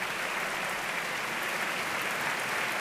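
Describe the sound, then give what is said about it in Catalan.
Audience applause in an opera house for the conductor and the orchestra as the musicians stand: a steady, dense wash of clapping that stays even and moderately loud throughout, with no voices. “Fa aixecar a tots els músics de l'orquestra que reben aquest aplaudiment”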